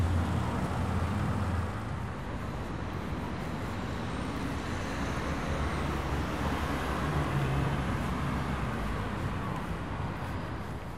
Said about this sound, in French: Ah, il n'y a que de la circulation tout autour. Ça m'englobe.